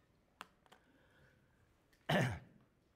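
A single short, harsh cough bursts out loudly after a quiet stretch with a couple of faint clicks.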